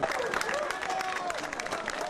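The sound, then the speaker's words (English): Faint clapping and cheering rise from an onlooking crowd in Port-au-Prince as a man in his 20s is pulled alive from earthquake rubble, with scattered voices calling out through the steady patter. “As the man was pulled from the rubble, people cheered and watched.”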